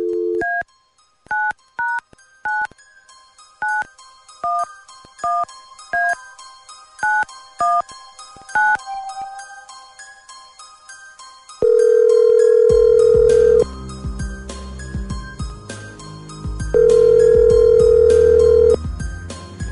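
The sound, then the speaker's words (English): Telephone being dialed: a rapid series of short, bright touch-tone keypad beeps, then two long, steady ringing tones on the line with background line noise between them. “Here we go. Dialing at random.”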